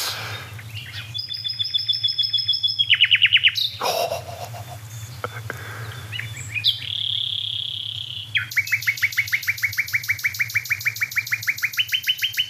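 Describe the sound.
A bird sings at night in bursts of rapid, repeated trills and chirps, some high and piercing, some lower and sliding, over a steady low background hum.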